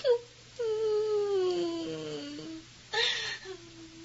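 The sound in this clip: A boy cries sadly in a few whimpering, wavering wails. The longest is drawn out and slides downward in pitch, followed by a sharper sobbing burst and a softer whimper.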